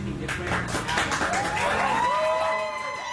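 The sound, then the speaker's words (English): Supporters of a Sacramento City Council candidate clap and cheer at an election night watch party in a packed Midtown restaurant. The applause is loud and steady, and rising whoops join in toward the end. “At a packed Midtown restaurant, Vang supporters cheered as early returns appeared on screens, showing she had likely forced a runoff with Matsui.”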